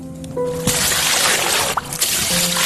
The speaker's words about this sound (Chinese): 再用冷水冲淋降温，让饭粒收缩，有利于微生物繁殖。